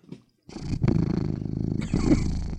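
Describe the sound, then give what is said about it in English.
A pet cat purrs loudly with a low, rough, continuous rumble that pulses steadily for about two seconds, broken by a couple of brief catches, after a short faint sound at the start. “Sorry, I've got a cat.”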